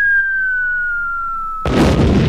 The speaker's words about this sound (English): have the bomb sound effect ready